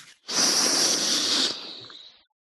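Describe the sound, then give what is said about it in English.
One long, deep inhale, loud and hissing, holds steady for over a second and then tapers off softly before silence. “Now, everybody take a deep breath.”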